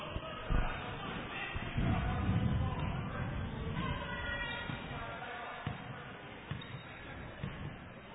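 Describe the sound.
Basketball dribbled across half court during a Wildcats game, a few dull thumping bounces at uneven intervals heard under a commentator's steady play-by-play voice.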